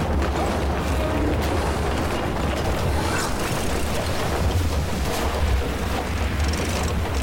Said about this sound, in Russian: Яхта плывет, красиво рассекая воду.